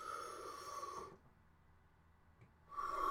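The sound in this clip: A deep breath drawn in audibly and forcefully for about a second, followed by a quiet pause, then a second strong breath beginning at the end.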